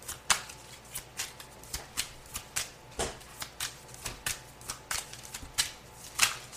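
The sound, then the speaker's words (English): Tarot cards shuffled and drawn from a deck: a fast run of many crisp, papery flicks and riffling snaps with an uneven rhythm and no talk. “using the Gregory Scott Tarot, a tarot of positive clarity, is what it says on the box, which also is one of my favorite tarot decks. May I have three cards,”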